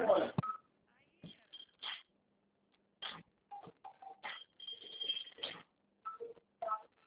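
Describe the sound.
Telephone dialing tones as a call is placed: many short electronic beeps in irregular clusters separated by pauses, with a thin, narrow phone-line quality.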